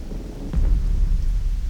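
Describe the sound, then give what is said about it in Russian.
Thunder rolls deep and heavy through a downpour in a thunderstorm, the rumble swelling in just after half a second and holding loud to the end over the steady hiss of rain. “Дождь не прекращался 40 дней.”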